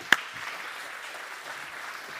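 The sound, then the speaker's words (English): Applause from a church audience after the preacher asks for a round of applause: steady, dense clapping that fills the whole clip at an even level, with one sharp clap standing out at the very start. “Let's give these guys a big round of applause.”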